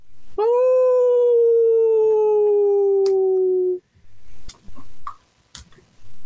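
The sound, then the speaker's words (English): A long, low, keening howl rises from a shot vampire's decaying body. The single mournful tone holds and sags slowly in pitch for about three seconds, then gives way to scattered faint clicks and rustles. “as the body of the vampire that got shot, like, not but half a minute ago, begins to decay, sort of in the background, the group of you just faintly hear this low, keening...”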